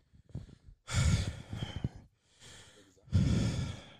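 Heavy, out-of-breath panting from a person: loud, breathy gasps and exhales come in a few long, uneven bursts with short lulls between.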